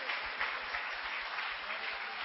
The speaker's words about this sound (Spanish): dile gloria a Dios, dele palmas al Rey de Reyes.